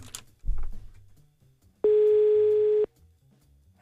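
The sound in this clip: Ringing tone of an outgoing telephone call placed to a listener: a single steady, mid-pitched tone holds for about a second, clear and loud over faint low murmuring, then stops.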